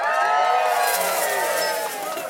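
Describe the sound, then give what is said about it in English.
Bystanders cheer as a tortoise wins a race against a hare. The excited crowd keeps up a sustained, mid-loud roar of cheering with whoops, then softens a little in the final half second. “Before he could reach the oak tree, the crowd of cheering bystanders”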